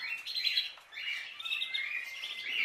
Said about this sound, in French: J'entends ça d'assez loin ici, mais ça semble être un... On dirait qu'il y a un merle là, qui est de loin au loin.